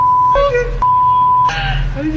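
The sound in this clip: A censor-style beep sounds in a played video recording. It is a steady high tone in two long stretches, with people talking under and between them.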